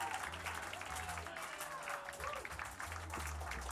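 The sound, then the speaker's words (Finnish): Audience applause after a concert performance at the Jyrock 2012 festival: a crowd claps steadily and evenly throughout, fairly faint, with no single claps standing out. “Paljon aplodeja.”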